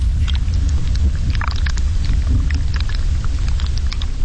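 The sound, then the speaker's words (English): Tundra plant roots shifting underground, picked up by microphones, give a steady low rumble scattered with many faint crackles and ticks. “What you're hearing is these plants, as they move, like their roots shift underground, and then that movement is registering in the microphones.”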